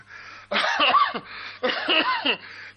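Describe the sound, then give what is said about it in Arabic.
A sick man coughs in a hospital ward, two harsh bouts of several rasping bursts each, loud and with no talk. “الراجل تعبان، ما بطلش كحه لما تلف لي اعصابي.”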